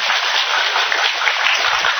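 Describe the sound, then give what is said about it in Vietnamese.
Applause from the audience at a Buddhist dharma gathering in Atlanta: a dense, even wash of many hands clapping that holds at a steady level throughout, with no voices over it. “Tôi quý vị muốn thầy trở lại từ lần tới nữa không, có muốn nữa không, có ai muốn vỗ tay đi.”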